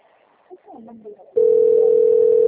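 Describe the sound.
A telephone dial tone for an outgoing call sounds as one loud, steady, unbroken hum, starting abruptly after a brief stretch of quiet talk and holding to the end.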